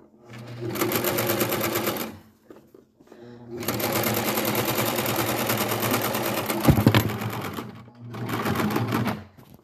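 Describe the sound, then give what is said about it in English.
Sewing machine stitching pockets onto a leather skirt, running in three steady bursts of rapid, buzzing needle strokes separated by short pauses, with a single louder knock midway through the middle run. “I'm sewing some pockets on a skirt.”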